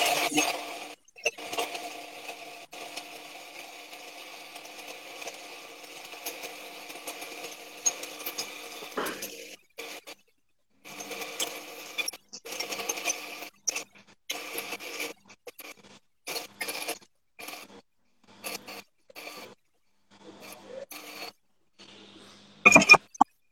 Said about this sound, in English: I'm just going to grind out the coffee. I might flip the camera for that. Here we go.